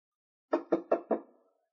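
Four evenly spaced knocks on a locked room door, each a firm, short thud with a quick decay, falling silent after the last.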